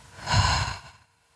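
A single audible breath during a breathing exercise: a soft, airy rush that swells and fades within about a second, heard alone.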